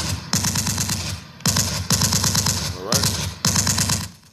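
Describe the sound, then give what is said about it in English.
Rapid machine-gun style gunfire standing in for a 21 gun salute: several loud bursts of fast, rattling shots, each about a second long and separated by short pauses. “21 gun salute for that man.”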